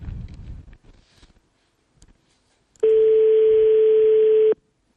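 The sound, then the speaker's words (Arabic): Telephone ring tone heard while a call is placed: a single loud, flat, steady tone lasting under two seconds, after a stretch of faint line noise. “الهاتف يرن.”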